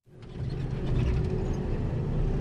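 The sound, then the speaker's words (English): An armored vehicle with machine guns mounted on top travels with African Union peacekeeping soldiers near Mogadishu. A steady low engine rumble rises in from silence, mixed with rattling, clanking mechanical noise, and no one talks. “I'm traveling in an armored vehicle with machine guns on top”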